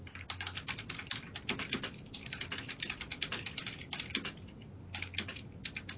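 Typing on a computer keyboard, a faint stream of rapid, irregular keystroke clicks with brief pauses, with no talk.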